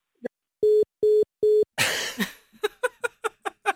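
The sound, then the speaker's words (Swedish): A telephone call ending as the receiver is hung up: a faint click, then three short, identical mid-pitched beeps, followed by a noisy burst and a string of short voiced bursts. “så jag lägger på luren nu”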